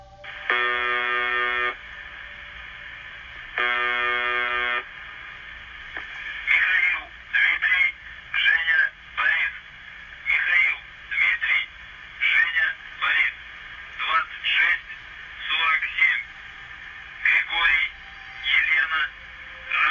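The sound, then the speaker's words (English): Shortwave radio signal from the UVB-76 station: two long, harsh buzzer tones, then a run of choppy, narrow-band voice-like bursts over faint static. “The creepy and sometimes incoherent broadcasts from UVB 76 sounds like this.”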